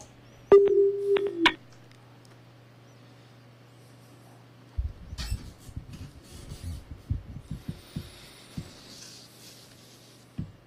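Telephone dialing tones placed for a call: a brief burst of beeps at the start, followed by quiet line noise with scattered clicks over a steady low hum.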